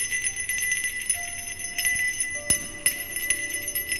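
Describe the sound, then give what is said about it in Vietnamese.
A hand bell is shaken, giving a continuous high, bright tinkling that pulses unevenly at moderate loudness. A couple of sharper knocks cut through near the end. “Loáng thoáng bên tai đã vang lên tiếng chuông lắc.”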